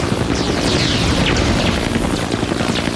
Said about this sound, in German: Helikopter über Reservat bedeutet Gefahr. Ganz besonders, wenn er in unsere Richtung fliegt und seinen Suchscheinwerfer eingeschaltet hat.